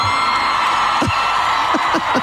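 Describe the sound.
Concert crowd of some 90,000 people screaming and cheering, a loud, dense, continuous roar with scattered shrill whoops rising out of it.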